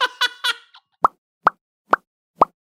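Four crisp mouth pops imitating bubbles bursting, spaced evenly and each short and bright, following a brief run of voiced vocal sounds.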